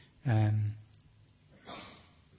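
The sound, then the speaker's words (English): Two breaths into a microphone: a loud, close, sigh-like exhale is followed after a pause by a softer, shorter breath. “I just realised all that noise was me breathing into the microphone.”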